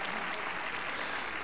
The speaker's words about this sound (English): Give the Lord a hand clap for that tonight.